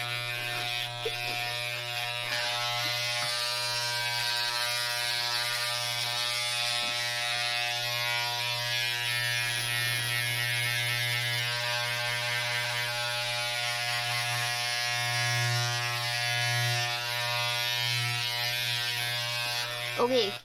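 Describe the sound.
Electric hair clippers give a pet a haircut at home, producing a steady, loud, harmonic buzz that runs throughout with only slight wavering in tone as the blade works.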